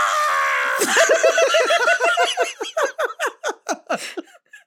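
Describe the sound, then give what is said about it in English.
Miss Piggy screams as the rope snaps and she falls off a cliff: a loud high shriek that breaks into a rapid run of short, descending wailing bursts, growing choppier and fading toward the end. “the Piggy scream is the best thing in the entire world.”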